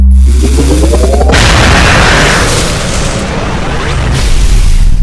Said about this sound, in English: Can I fire it? Sure, but keep in mind the trigger has almost no pull at all. Right. Here goes.